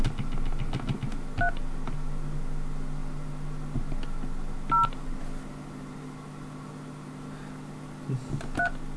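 Telephone keypad dialing tones during a call flash: three short dual-tone beeps, spaced a few seconds apart, sound faintly over a steady low hum.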